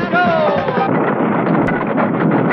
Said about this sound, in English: We're now at the North Pole, where a rocket is being launched to catch the satellite and rescue Santa. Control tower to rocket. Prepare to blast off.